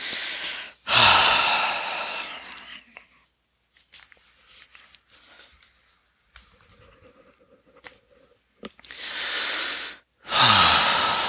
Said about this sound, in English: So let's do this. Let's breathe.